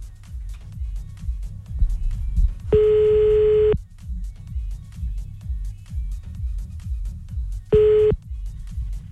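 Telephone tones as a call is dialed from home: two steady, bright tone bursts, the first about a second long and the second much shorter, over low, rhythmic background music.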